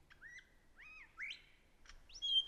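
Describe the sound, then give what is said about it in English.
A bird imitates the wailing call of a black cockatoo, giving a few faint, thin, rising whistled notes separated by short pauses. “You hear that wailing, crying sound there? That's a perfect imitation of the call of the black cockatoo.”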